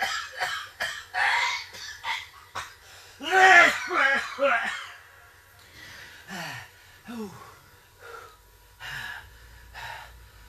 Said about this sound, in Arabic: عرفتي علاش كيجي الكحة هادي؟